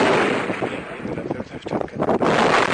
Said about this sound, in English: This is from YouTube video posted yesterday. It shows a rocket-propelled grenade being fired at a Gaddafi vehicle.